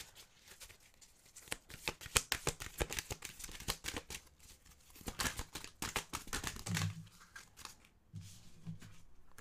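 Oracle cards being shuffled give off many rapid, crisp riffling snaps in uneven bursts, fairly faint and with no talk over them.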